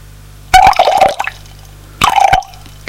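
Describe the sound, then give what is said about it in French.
Coffee being poured into a cup, in two short bursts separated by a pause: a bright, gurgling liquid splash that settles into a steady pouring tone, the first pour slightly longer than the second. “Il lui remet du café”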